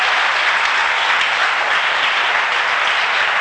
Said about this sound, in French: Il faut acclamer Dieu pour la guérison de la sœur.